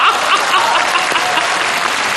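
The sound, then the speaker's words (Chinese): Audience applause after a recited poem: loud, dense clapping that holds at a steady level throughout. “桃花潭水深千尺，不及大家送掌声啊！”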